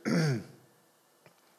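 A single harsh throat-clearing cough, loud and brief at the start, then near silence broken by a couple of faint clicks.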